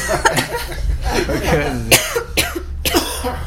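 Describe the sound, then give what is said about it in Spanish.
Coughing and throat rasping from a person on the edge of a sneeze that doesn't come, several short, harsh bursts mixed in with ongoing talk. “Está con el estornudo ahí bailándole. Ya te raspó la garganta.”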